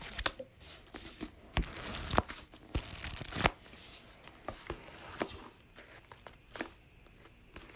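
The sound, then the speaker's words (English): Pages of a book flipped through in quick succession: many short, crisp, papery flicks and rustles in an irregular run, fairly loud, with no voices. “Are you, like, folding through a book? It's like, you're, like, going through a book? Yeah!”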